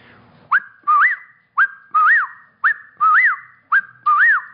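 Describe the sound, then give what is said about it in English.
A person whistles an imitation of a whippoorwill's song. Four clear, high phrases repeat at a steady rhythm, each a short upward note followed by a longer rising-and-falling slur. “I heard a whippoorwill singing in my backyard. They sing in the evening and at night, and they sound kind of like this.”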